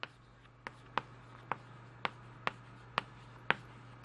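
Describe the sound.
A teacher writes on a board: a steady series of about nine short, sharp taps and scratches, spaced roughly half a second apart, over a faint low hum.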